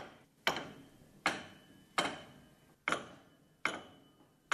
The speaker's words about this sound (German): Das hört sich so an, als ob du mit Klanghölzern aufeinander schlägst.